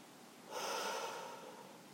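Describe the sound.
A slow, deep inhale taken to calm down from anger and frustration: one soft, airy breath that swells and fades over less than a second, heard alone without speech.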